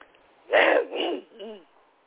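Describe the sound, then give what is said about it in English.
A person clears their throat in two rough, breathy bursts, ending with a short, low voiced grunt. The sound is alone against quiet background. “try to clear my throat”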